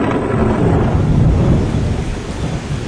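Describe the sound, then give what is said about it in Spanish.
Rain falling heavily: a dense, steady hiss with a low rumble underneath, loud and even throughout, with no voices. “Pero una tarde empezó a llover.”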